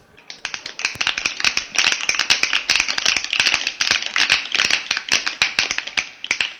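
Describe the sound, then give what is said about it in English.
An audience snaps their fingers to welcome a poet onstage, producing many crisp, overlapping snaps in a dense, uneven patter that continues throughout. “Now let loose and let those snaps fly as I introduce you to one hell of a guy.”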